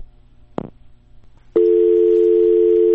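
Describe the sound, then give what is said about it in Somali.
Telephone dial tone after a call is cut off: a sharp click, then a short stretch of low hiss, then a loud, steady continuous tone that starts abruptly and runs unbroken to the end. “isla waqtiga uu telefoonkaasi go'ay waxaan mar kale ku celiyay taliya Shiine Mayow hase yeeshee kama uusan jawaabin wicitaanka telefoonka.”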